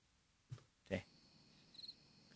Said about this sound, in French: Un beau bruit de criquet.